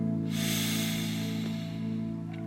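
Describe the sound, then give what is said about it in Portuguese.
A deep, drawn-out breath during a guided prayer, a long airy hiss rising over soft sustained background music and slowly easing off. “E eu quero te convidar a respirar. Respire fundo.”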